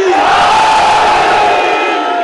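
A crowd of mourners shouts a religious slogan in unison at a Shia mourning gathering: one loud, sustained collective cry that holds steady for the whole moment.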